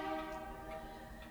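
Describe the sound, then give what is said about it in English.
A train passes with a faint sustained horn, a steady chord of layered tones over a low rolling rumble, holding without break from start to end. “Here comes the train. Timed this perfectly.”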